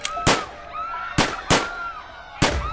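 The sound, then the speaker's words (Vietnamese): Gunshots ring out during a deadly Christmas Eve attack on a house: about five sharp, loud cracks at irregular intervals, with faint, high, wavering tones between them. “Các tiếng súng vang lên không ngừng cùng tiếng la hét.”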